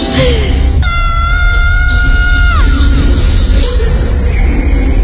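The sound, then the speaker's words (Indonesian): A terrified person screams as loud as possible: a loud, sustained, piercing cry that holds a steady pitch, then drops and breaks off, over a dense, noisy background. “Aku berteriak sekeras mungkin.”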